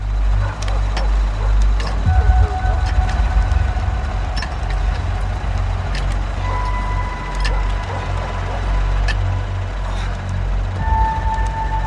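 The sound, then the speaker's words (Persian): Cars driving along a road at night, a steady, loud low rumble of engines and tyres that continues without clear breaks. “ماشینا توی جاده حرکت میکنن”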